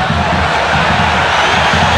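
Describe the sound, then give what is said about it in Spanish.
A crowd of Gimnasia supporters at a football stadium protests during a match against River. Their massed voices form a continuous, loud roar with no single voice standing out. “Se queja la gente, reclama todo el público tripero.”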